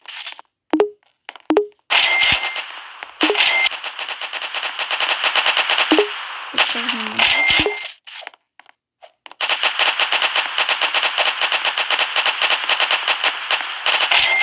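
Rapid video game gunfire crackles in sharp bursts, with a few scattered single shots at first, then longer automatic volleys and a sustained loud stream of rapid shots to the end.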